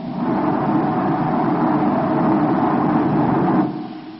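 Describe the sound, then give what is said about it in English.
Spaceship rocket motors firing as a radio drama sound effect, both motors burning on the return from Mars; a loud, unbroken rumbling hiss holds level, then drops away abruptly near the end. “Turn complete. 180 degrees. Fire both motors. Now.”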